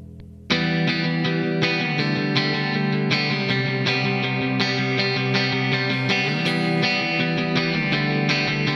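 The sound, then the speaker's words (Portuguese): Heavily distorted electric guitar from a distortion pedal plays loud, sustained chords that change every second or so, entering sharply after a brief silence and holding a dense, buzzing tone. “Pedal de distorção.”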